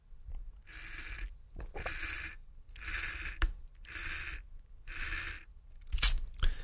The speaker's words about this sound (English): that is me sucking water, of which I just drank 2 ounces of water through a thing called a Hydra Coach.